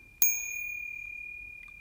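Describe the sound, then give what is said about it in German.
A tiny golden bell on an ornate Louis XIV clock is struck once by a small gilded shepherd figure. It gives a single bright, clear ding that rings on with a long, slowly fading tone, quiet and alone. “ihr schlägt die erlesene Louis XIV-Uhr 3, in dem ein winzig kleiner, nackter, vergoldeter Hirte gegen eine winzig kleine, goldene Glocke schlägt.”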